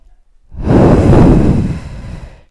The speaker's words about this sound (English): Long, slow, deep breath.